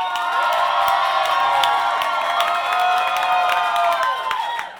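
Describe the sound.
A crowd cheers and whoops for Italian during a show-of-applause vote, a loud, continuous roar of many voices with overlapping shouts that holds steady for the whole stretch.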